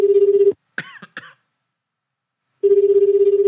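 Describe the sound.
Ringback tone of an outgoing telephone call, a steady buzzing pulse heard twice with a short silence between. A cough and throat-clearing fall in the gap.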